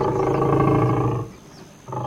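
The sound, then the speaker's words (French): A lion roars once in a long, deep, sustained roar that fades away, then a second roar begins just as the sound ends. “Il ouvrit grand la gueule et poussa un rugissement qui plia les baobabs, souffla le sable en tornade et souleva un typhon dans l'étang.”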